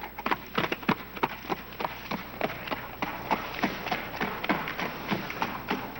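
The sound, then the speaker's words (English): Horse hooves clip-clop as a rider arrives, a steady run of many sharp hoofbeats in an even rhythm, with no voices over them. “Outside, Percival rides into Camelot.”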